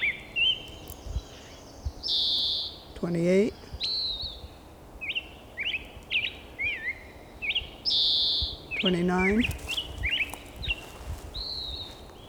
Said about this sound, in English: I don't see the bird yet